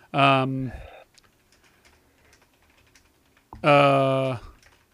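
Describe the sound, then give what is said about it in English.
Typing on a computer keyboard makes a faint run of quick clicks between two short, loud, hummed vocal sounds. “Sorry, I can't type and speak at the same time.”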